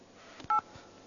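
A single short touch-tone beep from a telephone keypad being dialed: a steady two-note electronic tone lasting about a tenth of a second, with faint taps just before and after it.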